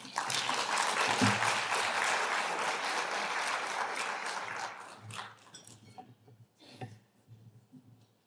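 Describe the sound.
Audience applause welcomes two speakers onto a stage for a discussion about the National Disability Insurance Scheme. Dense, steady clapping lasts about four and a half seconds, then thins to a few scattered claps that fade out.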